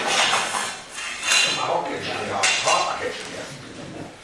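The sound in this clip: Metal cookware clinks and clatters as an item is set on top of a cooking pot over a fire, with a few bright knocks rising over continuous talk.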